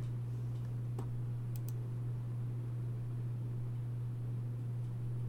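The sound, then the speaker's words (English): A few faint, sharp computer mouse clicks stand out briefly over a steady low electrical hum, with no talking. “After, oh my god, what did I just click?”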